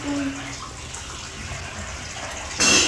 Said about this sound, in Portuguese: Tá caindo água. Tá correndo água.